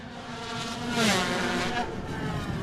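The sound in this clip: A racing motorcycle roars as it arrives at the finish line, its loud engine whine swelling briefly about midway and then holding steady to the end.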